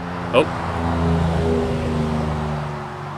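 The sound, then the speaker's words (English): A Miata car drives loudly with a steady, low, droning engine rumble that holds throughout, and a brief high chirp sounds near the start. “It's kind of loud. Miata. That's my Miata.”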